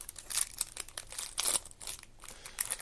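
Faint crinkling and tearing as a pack of trading cards is opened, a quick series of soft crackling bursts from the wrapper with no voices.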